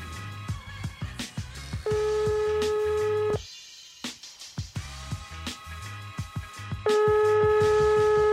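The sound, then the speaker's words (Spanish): Outgoing telephone call: two long, steady ringback tones separated by a pause, with rhythmic clicking pulses in between. “Ya está dando la llamada.”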